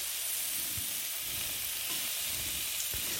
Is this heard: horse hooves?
no